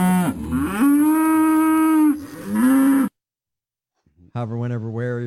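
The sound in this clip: Cows moo in long, low, drawn-out calls: two sustained moos back to back, a moment of silence, then another rising and falling moo.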